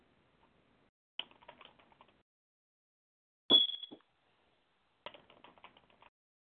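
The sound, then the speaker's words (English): Song lyrics are typed on a computer keyboard in three short bursts of quick clicks separated by quiet gaps. The middle burst opens with a louder thump and a brief ringing tone. “If you would, could you give me a second here while I type up the song?”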